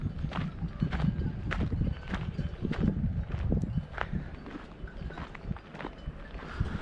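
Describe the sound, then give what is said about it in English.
Footsteps walk along a road, a steady series of hard, even taps repeating at a regular walking pace. Many steps are heard over a low background rumble, with no talking. “I'm back on the road here so I can I can walk on the road.”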